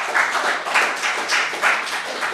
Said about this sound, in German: dann bitte ich nochmal um einen Applaus abschließend.